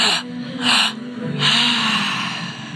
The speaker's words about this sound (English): And if you can breathe about 5% more air into that belly, this is where we do it.